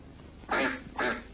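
A duck gives two short, loud, nasal quacks, evenly spaced over a faint, low, steady background hum.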